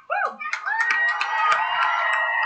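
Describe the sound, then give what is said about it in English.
Hand clapping at a high school graduation ceremony: a few claps within loud crowd noise and cheering voices. “I'm not sure who that is, but that's somebody clapping there.”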